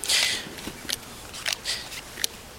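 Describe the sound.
Playing cards dealt out one at a time for a simple best-hand game: a few short, crisp flicking snaps at uneven intervals, fairly quiet, with no talk.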